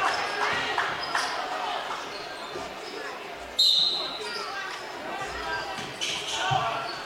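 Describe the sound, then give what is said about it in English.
A basketball is dribbled on a court during a game, a few quick bounces heard under continuous commentary and a dense wash of background noise. “Dribbling left with 8. Dribbling right with 6.”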